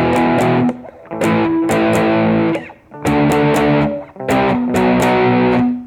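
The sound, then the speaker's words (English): Distorted electric guitar plays a power-chord progression of E, A, D, C and B, with loud, sustained crunchy chords separated by short gaps, with no voices. “It goes from E power chord to A to D to C power chord and the B power chord. It'll sound something like this.”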